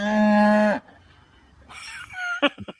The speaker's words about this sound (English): It's just like a video of a cow,